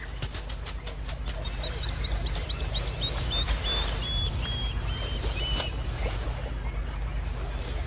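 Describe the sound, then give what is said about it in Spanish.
Plovers call noisily in a busy run of sharp, high chirps, many repeated notes tumbling over one another above a steady low rumble. “Y los alborotados chorlitos le declaran la guerra inmediatamente.”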